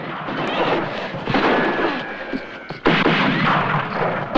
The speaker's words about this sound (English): A man grabs Helen, but she escapes when he's brought down with a shot.